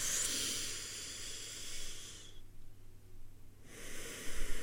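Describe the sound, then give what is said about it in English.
A deep breath drawn in as a long, airy hiss lasting about two seconds, then a short silence before another breath starts. “And now we're going to do a breath in”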